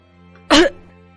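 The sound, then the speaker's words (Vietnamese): A single short, harsh cough from an old man, one abrupt burst lasting about a fifth of a second over a faint steady hum, with no other sounds around it. “Đang nói, Lão Thông bất ngờ ho lên một tiếng.”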